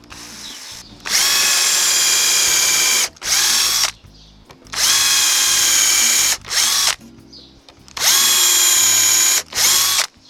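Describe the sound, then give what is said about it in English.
A screw gun drives screws into assembled wood: three long, steady high whirring runs, each ending with a brief second burst of the motor, separated by short pauses. “I'm pretty happy with screw gun, screws. Ready?”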